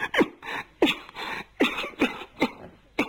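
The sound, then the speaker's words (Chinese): A storyteller voices a coughing fit: a string of sharp, rough coughs in quick, uneven bursts, some louder and some smaller, with brief gaps between them. “一阵咳嗽。”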